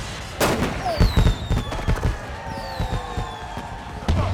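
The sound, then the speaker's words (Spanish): Gunshot fired during a tense film confrontation over a bag: a sharp, loud bang stands out among other heavy thuds and a dense wash of background noise. “¡Te atreviste a dispararme! Dije que lo haría.”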